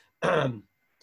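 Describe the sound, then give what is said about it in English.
A single short throat clearing, a gruff voiced rasp lasting under half a second, heard alone against near silence. “I'm going to take a sip of coffee here to clear my throat.”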